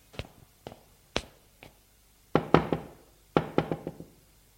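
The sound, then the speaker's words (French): Knocking on an apartment door on the third floor of a stately building: several sharp knocks, first spaced singly, then two quicker rapid bursts, crisp against near silence. “Je frappe.”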